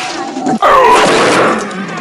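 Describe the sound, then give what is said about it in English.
A heavy crashing impact as the Minotaur's weapon comes down in an overhead swing onto a Spartan warrior's shield. One loud, broad smash lands near the middle and is followed by a rough, sustained clatter. “The Spartan thrusts, but the Minotaur grabs the head of the sphere and hits the shield with an overhead swing.”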